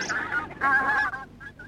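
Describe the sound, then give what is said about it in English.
Geese honking in a park: a few nasal, raspy honks in quick succession, the middle one loudest and longest, then shorter, fainter calls at the end. “But the ducks and geese ate all their food and chased them away.”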